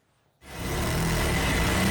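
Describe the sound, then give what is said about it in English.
Sewing machines at work in a Cairo workshop making Egyptian national flags: a loud, steady mechanical whirr that starts abruptly after a brief quiet and then runs continuously, with no voices. “The deeper Egypt go into this World Cup, the busier these sewing machines become. Inside this Cairo workshop, they can't make the national flag quick enough.”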